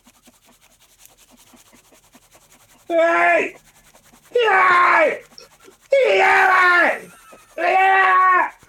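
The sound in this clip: A voice imitates the sound of competitive masturbation with four loud, strained, bleating shouted bursts, each lasting about a second, separated by short pauses.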